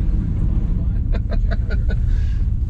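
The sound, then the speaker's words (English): A long vehicle rumbles as it is driven. A low, steady engine drone holds throughout without a break. “Here we go. This is one of the longer vehicles I've ever driven. I will say that. So you have to be cognizant of it.”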